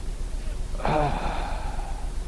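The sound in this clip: A man's voice imitates the exhaled breath of a dying man, a single short, breathy, voiced sigh that rises out of faint background hiss and quickly fades.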